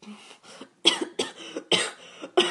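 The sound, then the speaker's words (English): A person coughs several times in a quick, uneven series of harsh bursts, with short pauses between them. “that was a real cough, and I turned it into a joke”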